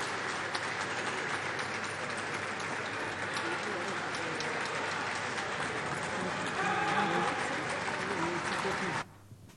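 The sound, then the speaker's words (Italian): Applause breaks out in the Italian parliament during the vote count for the presidential election. The clapping is continuous and fairly faint under a talking voice, swells briefly near the end, then cuts off abruptly. “non sono dentro alle cose, mi piacerebbe capire perché ci sono gli applausi.”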